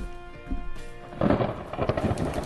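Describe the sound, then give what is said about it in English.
A thunder sound effect rolls as a low, noisy rumble. It stays moderate at first, then swells louder and rougher through the second half with no break. “That's the worst lightning ever. That's thunder.”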